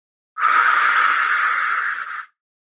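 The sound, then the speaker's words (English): A slow, stress-relieving breathing exercise: one long, steady breathy exhale, airy and fairly loud, lasting about two seconds, with no talk. “So, what it is, it's a prolonged exhale. So you, you inhale in and then exhale out longer.”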